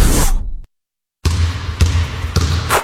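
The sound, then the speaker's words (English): A basketball pounds a floor at a Gun Violence Awareness Weekend event, giving a few heavy, echoing thumps with a short silent gap between the first bounce and the later ones. “Floor-pounding basketball and heart-stopping gospel music. That's the sound of Roseland Ceasefire's second annual Gun Violence Awareness Weekend”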